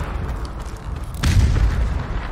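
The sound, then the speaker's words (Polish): Gunfire booms in a video game over a steady low rumble. About halfway through, a heavy, broad burst lands and lingers as a louder roar until the end. “Strzały. Dobra. Ale skąd oni strzelają, słuchajcie?”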